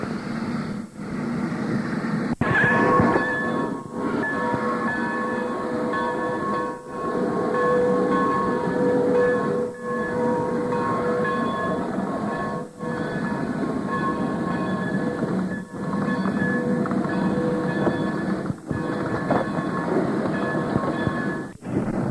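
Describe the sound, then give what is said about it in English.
A diesel locomotive rolls along a railway track on its way in from Trilby. Its loud, steady rumble carries thin metallic squealing tones and is punctuated by many regular clacks spaced a few seconds apart. “the diesel locomotive is on the way in from Trilby, and they have to be out of the way so the diesel locomotive can get by.”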